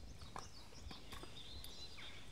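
Hooves of horses walking along a long-distance hiking trail, a few sharp, unevenly spaced clops over a quiet, steady background hiss.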